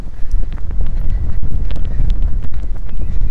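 A horse trotting during a riding lesson, its hoofbeats a steady rhythmic clatter mostly buried under heavy, continuous wind noise across the whole stretch.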